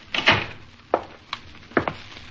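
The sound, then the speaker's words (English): A door is being shut: a few short, sharp clunks and rattles at uneven intervals, fairly loud against a quiet background. “You stay here! Shut the door.”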